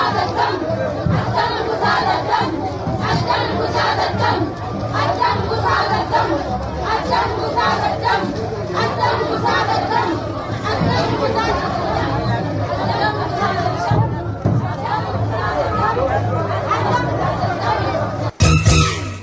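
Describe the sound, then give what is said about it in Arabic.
A large crowd chants and shouts slogans outside the North Darfur governor's house, many voices roaring together in a loud, continuous mass that breaks off briefly near the end. “وردت المحتشدون أمام منزل والي شمال دارفور هتافات”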